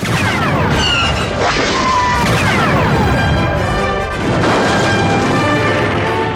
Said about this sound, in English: Four missiles flashed instantaneously to the rear of the hangar and blew the sheet metal panel into oblivion.